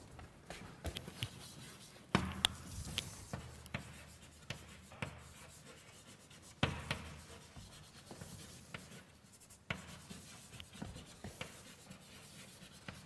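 Handwriting during a lecture on random variables: faint, steady scratching strokes with small taps and rubs of the writing tool, continuing without talk.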